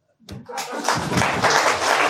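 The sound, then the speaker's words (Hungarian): Applause rises quickly from silence into a thick, even spatter of clapping hands that holds steady at a fairly loud level. “Helyes, taps.”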